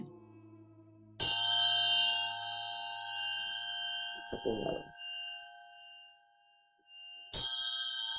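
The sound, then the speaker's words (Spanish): A resonant pyramid is struck twice, well apart. Each strike rings out as a bright, shimmering tone with rich overtones that fade slowly, and a short low rumble falls in the quiet between them. “Voy a darle, porque a muchos de ustedes les gusta, este sonido es de la pirámide.”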